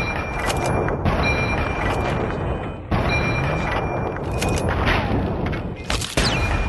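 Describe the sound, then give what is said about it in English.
Turret and sniper rifle gunfire in a video game involving a Talon Company mercenary and a Sentry Bot: dense, loud bursts of shooting broken by a few sharp, heavy blasts. “Talon Company Merc with the sniper rifle. The turret has found me and is shooting at me.”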